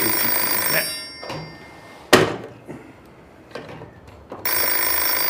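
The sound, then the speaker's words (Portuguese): A telephone bell rings with an incoming call in two ringing bursts, one at the start and one at the end, separated by a quieter gap that holds a single sharp knock. “Tem ligação aí, Carol? Eu queria falar com alguém.”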